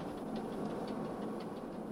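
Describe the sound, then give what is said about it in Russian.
A daily passenger train running at about 100 km/h through a station: a dense, steady rumble with faint periodic clicking and no voices. “Это ежедневный поезд «Юность».”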